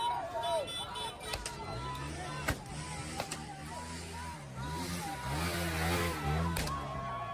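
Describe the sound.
A motorbike rides past; its engine drone swells with shifting pitch while voices talk throughout.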